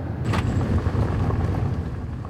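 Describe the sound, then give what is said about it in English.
Car pulling into a motel parking lot and driving around back, with a low, steady engine and road rumble held at an even moderate level throughout. “We pull into a motel parking lot and drive around back.”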